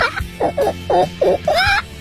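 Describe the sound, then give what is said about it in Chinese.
A hoarse human voice imitates an excited, agitated hen about to lay an egg, giving a hurried series of short clucks that ends in a longer, rising squawk. “如果是一只很兴奋的，马上就要下蛋，很急促，心情很焦躁的鸡呢？”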